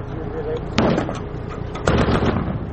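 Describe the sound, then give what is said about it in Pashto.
Gunfire between Afghan soldiers and Taliban fighters on the outskirts of Tarinkot at dusk: two sharp, loud bangs stand out above a continuous, noisy background. “د ماښام تیاره لا نوي خپره سوې، خو د ترینکوټ ښار په څنډو کې افغان سرتیري او طالبان پر یو بل ډزې پیل کړي.”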